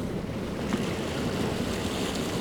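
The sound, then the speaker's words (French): Waves of a rising tide with a high tidal coefficient wash in as a steady, dense roar, continuous and even in loudness throughout, mixed with rushing wind noise. “Le son que vous entendez, c'est celui de la marée montante.”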